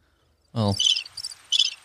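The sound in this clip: Cricket chirping sound effect: after a brief low onset, several bursts of high, shrill chirping follow in an uneven rhythm over near silence.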